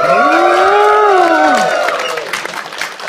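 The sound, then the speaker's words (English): A conference audience in Sofia, Bulgaria cheers wildly: loud whooping voices swoop up and down over a dense wash of crowd noise and clapping that gradually thins out. “It's an unbelievable crowd. They're out of control. They are out of control.”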